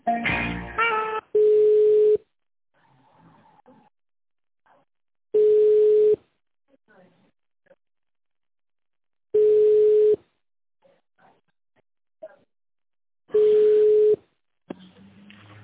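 A telephone line tone sounds while a call is being transferred: four steady, mid-pitched beeps, each under a second long and spaced about four seconds apart, with faint rustling in the gaps.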